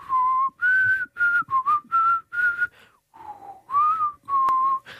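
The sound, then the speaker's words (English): A person whistles a tune alone in clear, fairly high notes. Several short phrases are broken by brief gaps, with a longer pause about midway before the melody resumes. “I can whistle.”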